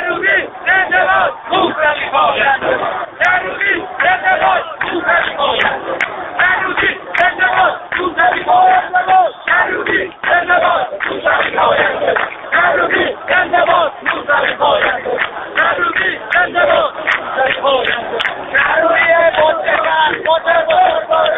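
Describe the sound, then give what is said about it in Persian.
A protest crowd chants in an Iranian street on Keshavarz Boulevard. Loud, muffled massed voices repeat rhythmic chants in steady pulses throughout. “صدای ملت ایران رو بشنوید. این صدای واقعی ملت ایرانه.”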